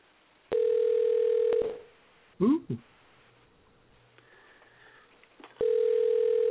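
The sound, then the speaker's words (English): A telephone dial tone hums steadily for about a second and then cuts off. A few short, chirping dialing tones follow, then a quiet stretch, and the steady tone returns at the end. “Dialing.”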